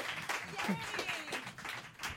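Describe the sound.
Audience applause greeting a comedian at a stand-up show: a short burst of mixed clapping with voices talking and calling out over it.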